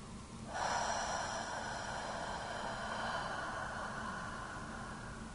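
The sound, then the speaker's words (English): A long, airy breath through the mouth during a guided yoga relaxation practice. A steady, soft rush of air starts suddenly and holds at an even level. “Breathe in fully and exhale through the mouth.”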